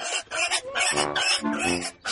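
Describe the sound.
A pig squealing loudly in a field: harsh, high, nasal squeals in several dense bursts with brief gaps between them.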